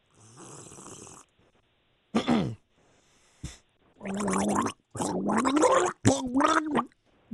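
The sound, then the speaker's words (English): A man gargles water to a tune in a guessing game, producing several bubbling, throaty bursts of varying length with wavering pitch and short pauses between them. “He's gargling artist number 1.”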